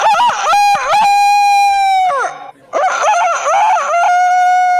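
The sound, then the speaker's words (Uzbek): A voice imitates a rooster crowing, the bird pictured as tirelessly serving seventy hens: two long, loud, bright crows, each held steady on a high pitch, separated by a brief pause. “saratonda esa 70 ta tovuqqa o'z xizmatini ayamaydigan xoroz ovozi.”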